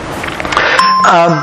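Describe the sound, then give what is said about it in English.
A mobile phone ringtone goes off in the middle of a talk about ancient gods: brief, bright electronic chiming tones ring out loudly over a low background for about a second and a half. “Ancient gods, sorry, it's my phone, I'm sorry, I've not switched it off.”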